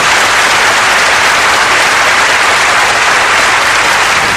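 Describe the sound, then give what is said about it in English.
Loud, steady applause from an audience in Baton Rouge welcoming a guest, a dense continuous patter of clapping with no break. “I want us to give Mr. Didot a big hand of welcome, of friendship to our city of Baton Rouge.”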